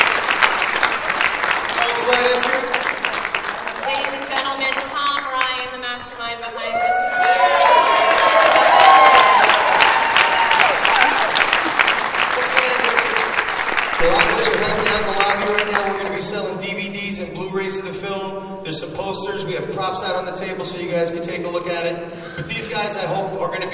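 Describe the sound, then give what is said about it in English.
An audience applauds the cast and crew at a screening event. Sustained clapping swells louder around the middle, with some cheering, then eases as voices speak over the continuing applause. “give these people a round of applause, please.”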